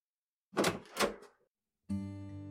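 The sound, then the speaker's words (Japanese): A house's front door is handled and opened: two dull, heavy thumps in quick succession, a short pause, then a sustained, steady ringing tone. “玄関を開けると”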